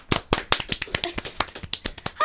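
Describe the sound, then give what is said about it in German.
An audience applauds a contestant at a local talent show with scattered, uneven clapping. Many sharp individual claps land at irregular intervals rather than as a dense wash. “Wir fangen an mit Michelle Huntinger. Bitte einen Applaus.”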